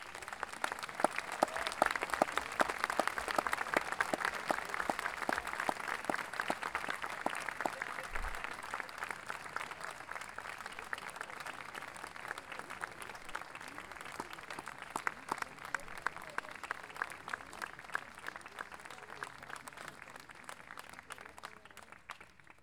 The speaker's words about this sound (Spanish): a quienes damos un gran aplauso,